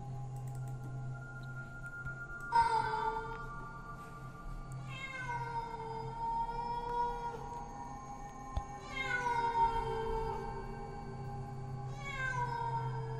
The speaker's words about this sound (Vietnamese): Điều kỳ lạ là những con mèo rừng lại bắt đầu loanh quanh đâu đây, kêu lên những tiếng thê thiết lắm.